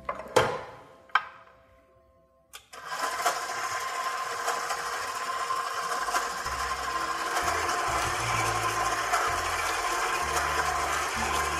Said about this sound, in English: If you need to, you can stop the mixer and give your bowl a little scrape down on the sides to help get that flour all incorporated and everything mixed together.